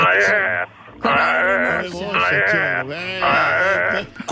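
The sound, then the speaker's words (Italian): A woman's voice imitates a newborn wild boar with a burred, uvular R: a few loud, high, wavering, drawn-out squeals separated by short gaps. “E invece il cinghiale appena nato lo fa lo stesso con la R moscia, me la faccia? Perché è selvatico.”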